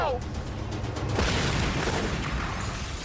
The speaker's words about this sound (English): Alan's given the job of blowing up the vault. Fire in a hole.